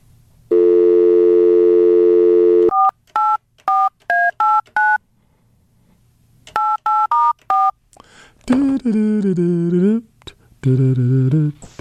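A telephone call being dialed. A steady dial tone sounds first, then two quick bursts of touch-tone key beeps, followed by loud wavering tones as the call connects. The sounds are clear and stand alone.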